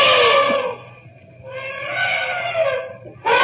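An elephant trumpets as it charges and attacks hunters, loud brassy blasts: a cut-off call, a long wavering trumpet, then another blast bursting in abruptly at the end.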